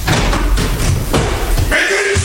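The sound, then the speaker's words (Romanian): A door bursting open as men rush into a room, dramatized: a few heavy slams and thuds within a loud, dense burst of scuffling commotion. “În aceeași clipă, ușa se deschide brusc și în cameră năvălesc oamenii lui Lăpușneanu”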